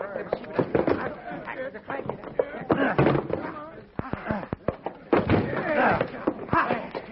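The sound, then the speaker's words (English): A locked door is forced open with heavy thuds and sharp cracking slams. Many forceful impacts land in quick, irregular succession. “What's locked? Stand back. Maybe I can break it off.”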